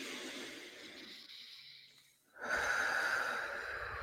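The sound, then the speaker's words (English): A person takes a deep breath during a guided affirmation exercise. Two long, soft, airy breath sounds are separated by a short pause, and the second is fuller and louder. “And take a deep breath.”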